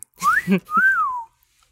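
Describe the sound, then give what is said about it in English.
A woman whistling two clear phrases alone: a short rising note, then a longer sustained tone that arches and glides downward, clear and fairly loud. “She whistles and it's like a polyphonic, amazing singing that we never knew she could do”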